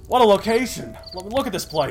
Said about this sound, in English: Listen to those crickets chirping.